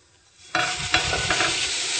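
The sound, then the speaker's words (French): A coated slice of bread, drained of its egg mixture, lands in a very hot frying pan. After a half-second of near silence, a loud, steady sizzle bursts in and keeps hissing and crackling to the end, with no talking. “Alors on l'égoutte un peu. Voilà. Puis on la dépose sur une poêle bien chaude.”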